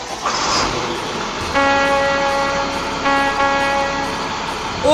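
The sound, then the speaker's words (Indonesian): A school group bus sounds its horn in two long, loud, steady blasts, the second following straight on from the first, over a background of traffic noise. “Terdengar bus membunyikan klakson.”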